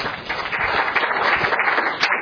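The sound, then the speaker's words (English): Audience applause for a camp crew, with dense, steady clapping from many hands that holds at an even, fairly loud level throughout. “So big hand of applause for our J crew.”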